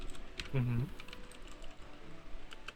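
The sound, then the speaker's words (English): Computer keyboard typing during an online search, a quick patter of light click-clacking keystrokes with a short voiced sound early on. “All the click clacking that you're hearing is me searching for Santi Cazorla's Arsenal.”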